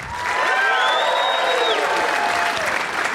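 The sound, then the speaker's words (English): Loud live-audience applause welcomes the co-hosts of a live show, a dense burst of clapping laced with a few cheering whoops, holding strong throughout. “Joining us, as always, my 2 co-hosts, Jason Manzoukas. Give him a warm welcome.”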